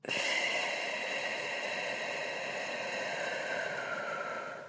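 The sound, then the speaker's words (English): A long, airy breath during a guided deep-breathing exercise of inhaling through the nose and exhaling through the mouth. The soft, hissing airflow holds steady for several seconds before tapering away at the end. “Inhale through your nose and exhale out your mouth.”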